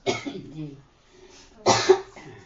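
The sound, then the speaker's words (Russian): Harsh coughing in two separate bursts with a short quiet pause between them, the second burst stronger and a little rougher. “До сих пор кашляю.”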